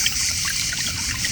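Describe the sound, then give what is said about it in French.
Murmuring water from a fountain, a soft continuous trickle and babble with bright splashy detail, steady throughout the brief moment without voices. “tout près du murmure de la fontaine.”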